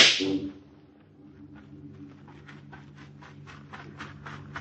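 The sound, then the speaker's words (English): A gun fired once to get someone's attention at a guarded gate: one loud, sharp crack at the very start that decays quickly, followed by faint, evenly spaced light taps. “Did you not hear me shoot off a gun to call your attention?”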